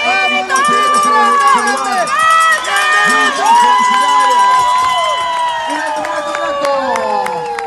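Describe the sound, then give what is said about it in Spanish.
A crowd cheers and shouts for a Paralympic runner who races with a guide. Many loud, overlapping voices hold sustained calls throughout. “este aplauso es para un grande del deporte”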